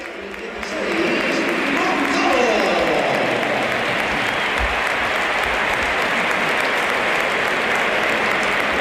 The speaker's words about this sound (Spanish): se la llevó Kylian Mbappé, aunque hay algunos aplausos en alguna de las zonas más cercanas a donde nos encontramos nosotros en la cabina de Radio Nacional.